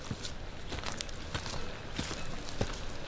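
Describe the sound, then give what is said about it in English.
Soft footsteps walking on ground: a few light, evenly spaced steps, faint and steady, with no talking. “Where we're walking has had 2,000 generations of people walking on it.”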